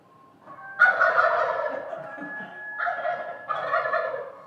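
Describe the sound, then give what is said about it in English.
Wild turkeys gobble in a few loud, rattling bursts, the first long and strongest, followed by two shorter gobbles close together. “The turkeys and the coyotes actually were calling back and forth.”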